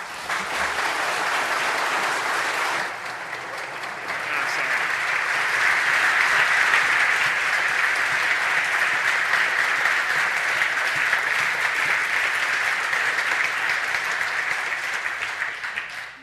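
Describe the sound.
An audience applauds to welcome a speaker with dense, even clapping for about sixteen seconds. It dips briefly early on, then swells and holds steady before fading at the very end. No voices are heard.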